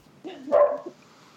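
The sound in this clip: A dog gives one short, mid-pitched bark, fairly faint, with quiet around it.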